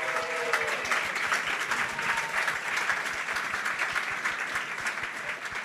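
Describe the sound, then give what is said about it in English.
Audience applause at a live show in New York: dense, steady clapping holds loud and even throughout, with a faint crowd murmur beneath. “So let's give Dre a hand on that.”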